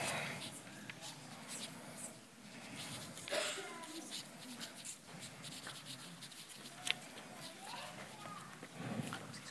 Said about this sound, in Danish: Så tegner jeg lige færdig imens.